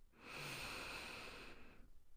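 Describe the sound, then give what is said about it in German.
A single deep, slow breath drawn in during a guided mindfulness meditation: a soft, steady airy hiss that swells, holds for over a second, then fades into quiet. “Nimm jetzt mit mir drei tiefe, ganz langsame Atemzüge. Atme tief ein”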